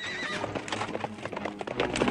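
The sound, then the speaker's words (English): A carriage horse whinnies shrilly at the start while hooves clatter continuously, the horse's harness being cut through with a sword. “draws alongside their carriage and cuts through the horse's harness with his sword.”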